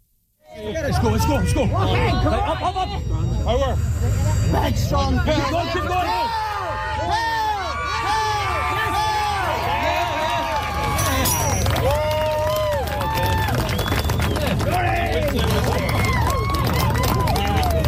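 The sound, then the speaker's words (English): A crowd cheers and shouts encouragement while a Canadian strongwoman lifts the Dinnie Stones in Scotland. The dense, loud voices and whoops continue without letup, and individual people call out urging her on. “With our sound of the day, that's Canadian Laurie McDougall-Sukrach lifting Scotland's Dinny Stones.”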